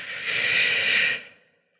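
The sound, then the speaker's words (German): A single slow, deliberate breath is heard as part of a breathing exercise. It is a soft, airy hiss that holds steady for about a second, then fades away into silence. “Vier Sekunden einatmen, vier Sekunden die Luft anhalten, vier Sekunden ausatmen”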